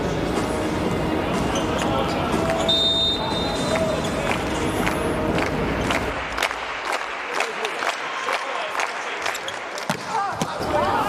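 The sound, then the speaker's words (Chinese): A hard-struck volleyball serve during a match, heard as sharp ball impacts over a dense roar of crowd noise that thins out partway through, leaving scattered thuds and shouts. “发球， 势大力沉啊！”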